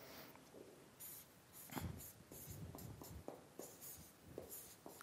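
Someone writes something down, and the faint, scratchy strokes of the writing come in irregular short bursts of rustle, quiet and alone without speech.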